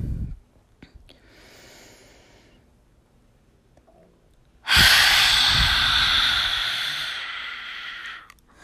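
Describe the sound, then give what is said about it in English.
A forceful breath is pushed out through an open mouth during a breathing exercise, a loud rushing hiss that lasts several seconds before fading, after a softer, quieter breath earlier on. “open your mouth and push it out, so you make a sound as you push out the breath”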